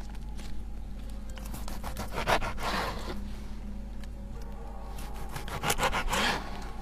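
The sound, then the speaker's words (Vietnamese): Meat being cut in a gloomy kitchen makes rhythmic rasping, sawing strokes. Many repeated scraping passes sound over a steady low hum, fairly faint throughout, with a couple of stronger surges. “Tiếng cắt thịt vang lên, nghe đến rợn cả người trong gian bếp u ám ấy.”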